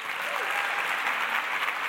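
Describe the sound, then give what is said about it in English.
Audience at a writers' festival clapping to welcome a performer to the stage, a thick, continuous wash of applause that stays loud and even throughout. “So please join me and let's get our clapping into formation to welcome to the stage Honor Easley.”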